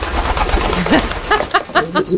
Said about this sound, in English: First, the carrier pigeon.